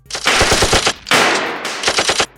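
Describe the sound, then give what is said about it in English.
Automatic gunfire as guards return fire in a dimly lit corridor in an audio drama: two long, loud bursts of rapid shots, each a dense rattle with crisp individual cracks. “The corridor was dimly lit, and while the guards returned fire immediately,”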